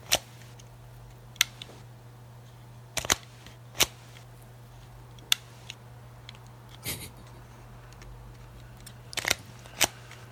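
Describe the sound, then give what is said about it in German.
Mechanical clicks from a Minox EC miniature camera being operated: a series of sharp, isolated snaps and ticks, some in quick pairs, spaced irregularly over a faint steady low hum. “Ein kleines Geräuschrätsel, man achte auf die Feinheiten. Es handelt sich um eine Minox EC,”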